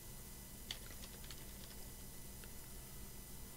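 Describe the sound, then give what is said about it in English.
Faint typing on a computer keyboard, a few soft scattered keystroke clicks over a steady low hiss. “If you want to try and type it in.”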